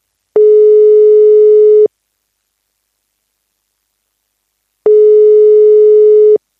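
A telephone busy signal on a failed call: two loud, steady, single-pitched beeps, each about a second and a half long, separated by a long silent gap.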